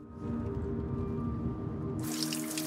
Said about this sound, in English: Rust-coloured water drains out of the bottom of a shower.